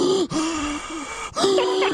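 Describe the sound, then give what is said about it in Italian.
Heavy, wheezing panting from a person, voiced and rasping with a steady hum-like tone. About three long breath strokes are broken by two short gaps, loud and with no other sound. “quell'imbecille lì che ansima come fosse Darth Vader”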